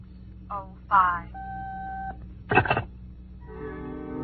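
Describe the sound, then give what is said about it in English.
Telephone being dialed to reach a time service: a steady two-tone dial tone holds under a second, then a short burst of clicks, with other sounds following. “I wasn't sure my watch was right, so I dialed at the correct time.”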